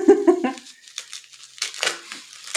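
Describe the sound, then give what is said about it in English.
Wrapping paper crinkles and rustles as a birthday present is unwrapped, in soft, irregular bursts that follow a brief voice at the start. “Lance was kind enough to bring me my birthday present, so I'm going to open it right now.”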